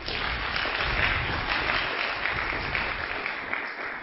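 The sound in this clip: An audience applauds to welcome a speaker, with thick, continuous clapping that stays fairly even for about four seconds.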